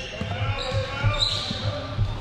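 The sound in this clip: Basketball dribbled during a dribble handoff in a half-court set, a few dull, low bounces thumping at an uneven rhythm under steady game noise and voices.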